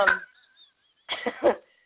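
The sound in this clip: A person with a frog in the throat clears it and coughs: one rough burst at the start, a short pause, then a cluster of three harsher, louder bursts.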